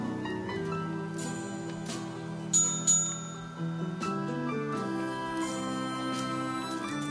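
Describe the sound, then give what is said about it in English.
A hand bell rings a couple of times in quick succession, each a short, bright metallic ding over a steady tonal background, followed by a softer ring shortly after. “Don't ring the bell unless there's food to take out.”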